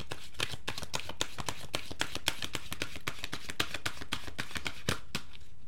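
Oracle cards being shuffled by hand before one is drawn: a long run of quick, crisp papery flicks and taps in a steady, even rhythm, heard alone without talk.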